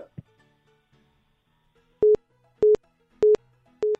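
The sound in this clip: Telephone busy tone on an unanswered call: four short, evenly spaced beeps at a steady mid pitch, loud and clean, following a quiet stretch with a few faint low sounds.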